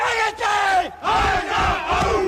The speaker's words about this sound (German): Und wie sich die Rostocker vor einem Spiel so richtig heiß machen, das hört sich so an.